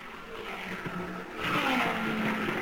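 IndyCar race cars run on the track, their engines making a continuous whining drone that grows louder partway through as the tone shifts.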